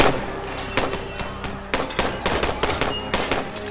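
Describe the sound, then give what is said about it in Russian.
Gunfire as police and soldiers shoot: many sharp cracks and dull thuds in irregular clusters, loud throughout. “Вики. Стреляют. Полицейские и солдаты.”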